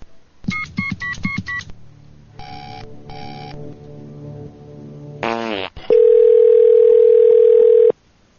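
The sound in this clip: A telephone call is placed: a rapid series of keypad tones, then two ringback bursts, a brief sweeping noise, and a long, loud, steady tone lasting about two seconds.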